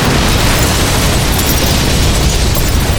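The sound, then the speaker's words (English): A giant powder explosion blows half the roof off a building and knocks a wall down, heard as a loud, dense, unbroken roar and rumble lasting the whole stretch, with no voices. “The force of the giant powder exploding sent half the roof flying off and blew one wall completely down.”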